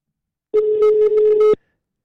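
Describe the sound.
Ringback tone of an outgoing telephone call: a single steady, mid-pitched electronic tone lasting about one second, starting and stopping abruptly, with silence before and after.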